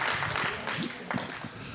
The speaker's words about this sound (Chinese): 我哋拍手掌去欢迎佢哋好吗？